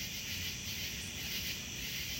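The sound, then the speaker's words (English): Crickets and other insects chirp outdoors on a deck, a dense, continuous high-pitched trill that holds at an even level from start to finish. “you can hear crickets and insects and some human noises”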